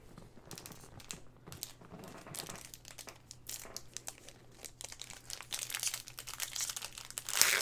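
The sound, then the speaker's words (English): A stubborn trading card pack wrapper is torn open: quiet foil crinkling and rustling with small tearing sounds, growing busier and louder toward the end. “Oh my god, that pack was hard to open up too.”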